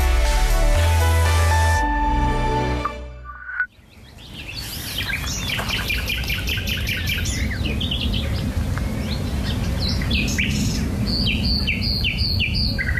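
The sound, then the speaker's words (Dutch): A nightingale sings on the Dordrecht side of the Biesbosch. Its song is a clear, varied run of bright chirps, trills and whistled notes that grows busier toward the end, with no voices. “Hanneke Hemelaar, die hoort aan de Dordtse kant van het Biesbos een loepzuivere nachtegaal. Ze neemt hem op en stuurt hem naar vroegevogels@bienavara.nl.”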